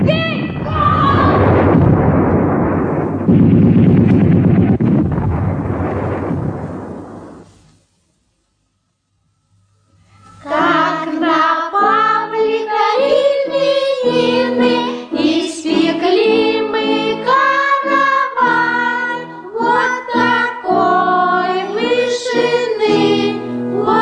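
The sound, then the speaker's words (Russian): A bomb explodes with a loud, broad roar that lasts several seconds and then dies away into silence. People talking follow after the pause. “Бомба! Чекай!”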